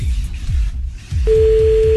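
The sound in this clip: A steady telephone line tone sets in partway through and holds to the end as a call is placed, following a stretch of low, rhythmic pulsing thumps.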